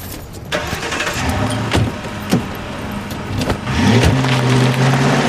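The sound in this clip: A car engine starts and the vehicle drives away, a steady, loud motor rumble with a few sharp knocks, growing fuller toward the end.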